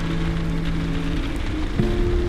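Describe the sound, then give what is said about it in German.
Rain patters steadily against window panes in stormy weather, an even, continuous hiss of drops at moderate loudness with no breaks. “Der Regen prasselt gegen die Fensterscheiben.”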